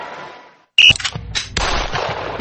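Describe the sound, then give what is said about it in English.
Sharp gunshots crack out at a shooting range in Louisville: a loud, abrupt first bang after a brief silence, then a few more cracks and a sustained, noisy wash of shots. “Whether you're dropping in to shoot or ready to become a member, this is shooting taken to the next level. With a state-of-the-art range”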